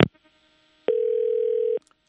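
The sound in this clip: A telephone rings unanswered: one steady electronic tone holds for just under a second, flat in pitch, with near silence around it.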